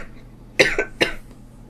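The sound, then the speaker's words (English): A person gives two short, sharp coughs about half a second apart, against a faint, quiet background. “The new features include the brand new patented cough mode, where you get to cough.”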